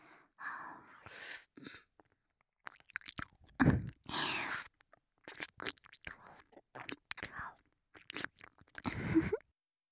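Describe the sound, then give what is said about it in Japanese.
Ear nibbling with teeth rubbing and chewing right against the ear, heard as many irregular, wet, crunchy bursts broken by short pauses, close and fairly soft. “挟んだ歯でコリコリって何度もこするように噛んで。”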